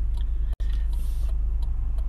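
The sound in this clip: Steady low rumble of a car being driven, with faint, regular ticking running above it throughout.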